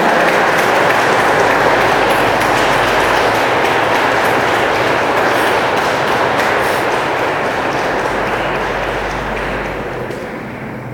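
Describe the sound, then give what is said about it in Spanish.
Sustained applause from a standing audience at a Mass in Ixtlahuacan: a dense, steady roar of many hands clapping, loud and unbroken, easing off toward the end. “Todos ponemos de pie, más el aplauso que se escuche bonito, ¿eh?”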